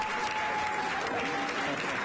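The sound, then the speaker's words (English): Applause in the Maryland General Assembly chamber as its annual session closes at midnight: a steady, even wash of clapping with a thin, constant tone running beneath it. “At midnight on Monday, the Maryland General Assembly's annual session ended with applause and the traditional Latin phrase for adjournment.”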